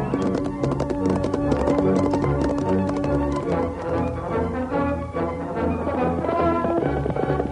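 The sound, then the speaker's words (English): Hoofbeats of a stallion at a steady, ground-covering gallop, a loud and rapid clip-clop rhythm that holds unbroken from start to end. “The mighty stallion raced ahead, traveling steadily at a ground-covering gallop.”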